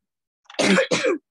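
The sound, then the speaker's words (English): A person coughs twice in quick succession. The two rough, throaty bursts come close together and are heard alone, with no talk over them. “And again, another cough coming up.”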